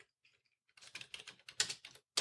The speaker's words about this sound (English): I'm going to type, first of all, Windows. So it's W-I-N-D-O-W-S space D. Okay. And then I'm going to press the Enter key